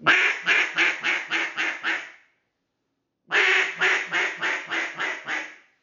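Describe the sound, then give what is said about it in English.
A duck call mimics a hen duck's cadence: two runs of about seven raspy, nasal quacks each, separated by a short pause, every run tapering in loudness toward its end. “I'm not trying to sound, you know, different than a duck. You know, we are still emphasizing the cadence of a hen.”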